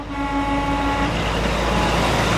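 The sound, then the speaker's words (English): A tangle of trucks idling outside a container yard in Portland, Oregon, on a weekday morning, giving a steady low engine rumble with a droning hum that holds constant throughout, no voices. “a tangle of trucks idles outside a container yard in Portland, Oregon.”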